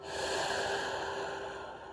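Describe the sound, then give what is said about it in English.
A long, steady exhalation releasing a deep breath during a guided relaxation exercise, a continuous airy rush that eases slightly toward the end. “Let's take another breath together and release.”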